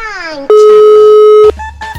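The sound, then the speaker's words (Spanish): Ringback tone on an outgoing telephone call: a single loud, steady pitched tone holds for about a second, with voices just before and after it. “vamos a ver si tenemos oportunidad de que nos reciban la llamada. Ya está timbrando ya.”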